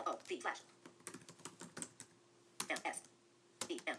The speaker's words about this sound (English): Okay, and then I'm going to type the same command here.